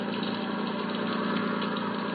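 A vehicle engine runs steadily while driving a load of evacuees. It makes a continuous mid-pitched drone with a faint rhythmic vibration, and no voices are heard.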